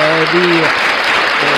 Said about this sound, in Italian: E beh, facciamo un applauso allora pure a questo punto.